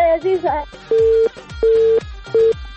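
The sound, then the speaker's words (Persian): Telephone busy tone after a dropped call: three steady, mid-pitched beeps of equal length, separated by short even gaps, following a brief moment of voice at the start. “متاسفانه تماس آرزو جان قطع شد.”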